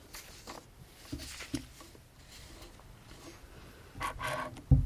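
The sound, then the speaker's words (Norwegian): Pages of a book are leafed through in soft, papery rustles: a few faint brushing sounds, then a louder rustle near the end, followed by a low thump. “jeg må bare bla litt for å se”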